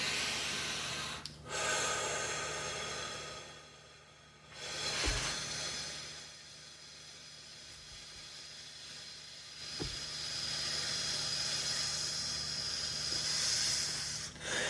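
A person exhales slowly for several seconds at a time. The long, soft, airy breaths carry a faint hiss and come as a few quiet drawn-out stretches separated by pauses.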